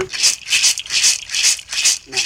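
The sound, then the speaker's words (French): Maracas shaken in a steady rhythm, about six bright, crisp rattling bursts evenly spaced one after another. “Voilà, et puis là, dans un sac, il y a tous les instruments, la flûte. Ça, c'est le carapace du Tawaou, une torture. Ouais. Maracas, qu'on distribue.”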